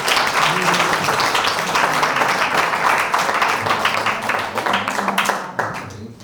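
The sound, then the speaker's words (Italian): Audience applause at a comedy night, greeting the comedians: loud, dense clapping that stays full and even for several seconds, then thins out and fades near the end. “Un applauso per loro!”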